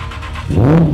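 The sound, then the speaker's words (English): A short engine rev from an Aston Martin Cygnet, a lightweight rear-wheel-drive wide-body car fitted with the Vantage V8 making 430 horsepower: a deep, loud tone that climbs in pitch partway through, then holds. “when a customer asked to have the V8 from the Vantage stuff into the Signet, Aston Martin obliged them.”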